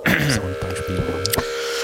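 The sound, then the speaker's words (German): Spring reverb feedback from a synthesizer with VCAs and envelopes rings out as droning metallic tones, steady high hums layered over a pulsing, stepped low pattern, loud and continuous throughout. “wir fangen an mit dem Feedback des dafür Spring Reverbs.”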